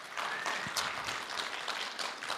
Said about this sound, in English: I promise that was not a plea to get your applause.